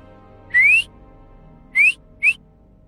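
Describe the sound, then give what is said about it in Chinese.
A man leaning on a window railing gives a flirtatious whistle: three bright, upward-sliding whistle notes, the first the longest and the last the shortest, over a faint background hum. “何峰靠着窗栏，轻佻地朝她吹了个口哨。”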